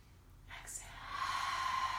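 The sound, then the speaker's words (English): Deep breath drawn in through the nose during a guided breathing exercise. A soft, airy hiss builds over the second half and holds steady, faint overall. “We're going to do deep breaths. Inhale through the nose. Exhale through the mouth.”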